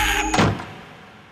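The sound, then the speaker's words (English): A door slammed hard makes a single heavy thud that follows a loud, noisy burst, then decays into a short fading rumble. “And I scream at the top of my 10-year-old lungs and I slam the door hard.”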